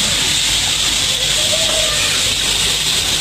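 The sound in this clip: Steady hiss and soft roar from a stove burning charcoal briquettes made from waste, an even, unbroken wash of noise that holds at the same loudness throughout with no distinct pops or crackles.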